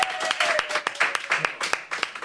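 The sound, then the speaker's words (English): A short round of applause: dense, steady patter of clapping with a few sharper hand claps standing out, lasting only a couple of seconds. “Round of applause, Pete Wicks.”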